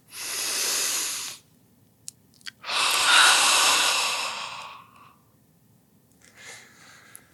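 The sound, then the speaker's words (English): A deep breath in followed by a slow exhale, heard as two airy, hissing bursts with a quiet gap between them. The second, outgoing breath is louder and lasts longer than the first. “take a deep breath in and then give a nice exhale”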